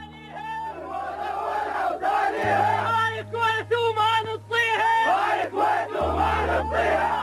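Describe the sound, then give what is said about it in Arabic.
Iraqi soldiers chant in the presence of Saddam Hussein, a loud mass of male voices shouting together in rhythmic bursts over a steady low hum. “هتاف الجنود العراقيين بحضور صدام حسين.”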